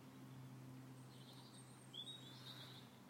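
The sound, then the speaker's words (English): Faint evening birdsong: a few high, thin chirps and short trills in the second half, set over a steady low hum in an otherwise quiet scene. “just hear the birds singing the last little songs before they go to bed.”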